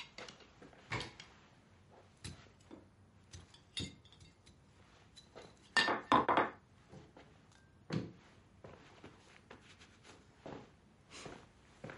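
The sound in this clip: A plate is emptied into a rubbish bin and set down on a counter: a series of sharp clinks, knocks and clatters at irregular intervals, loudest in a brief cluster midway, with no voices.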